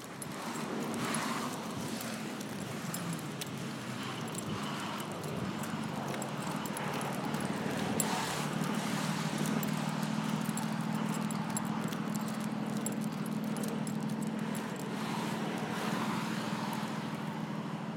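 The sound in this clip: Footsteps of a person walking home outdoors with a guide dog: a steady run of clip-clopping steps over constant outdoor background noise, with no talk.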